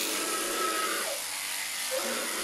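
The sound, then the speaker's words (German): Electric shearing machine clipping an animal's wool. It gives a steady, high-pitched buzzing whir that holds at an even level throughout. “Die ist schön gleichmäßig. Das wird mit der elektrischen Maschine und das kriegst halt mit der Handschere gar nicht hin.”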